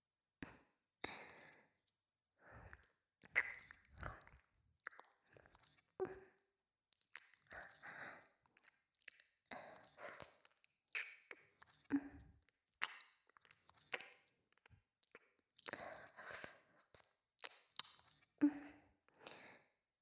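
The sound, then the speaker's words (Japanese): Wet ear licking in an ASMR recording: many soft slurps, smacks and squishy mouth sounds with breathy exhales between them, all quiet and irregular in rhythm. “またお耳を舐めさせていただきます”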